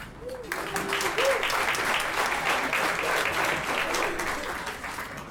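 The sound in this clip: An audience applauds to welcome a speaker at a live evening event in a culinary school venue. Dense, even clapping carries through the whole stretch, with a couple of brief vocal calls rising above it near the start.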